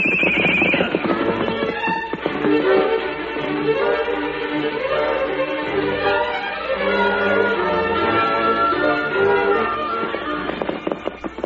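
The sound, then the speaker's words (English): A colt neighs while its hooves clip-clop, a loud, dense and continuous clatter that fills the whole stretch, with a high whinny near the start. “Here comes the colt. Yeah, this is it. Here, colt. Good boy. Here, colt.”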